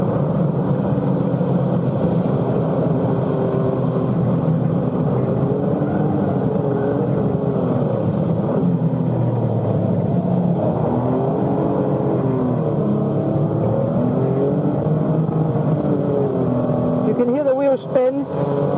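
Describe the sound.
Race car engine running flat out in fifth gear at maximum speed on the Nürburgring, a loud, steady roar whose pitch wavers slightly, with a voice talking over it.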